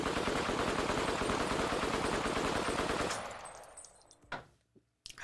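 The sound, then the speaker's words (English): Rapid automatic gunfire sound effect: a dense, unbroken burst of shots for about three seconds that then dies away, followed by a few scattered sharp hits. “Excuse me. That shot was for the New York Giants.”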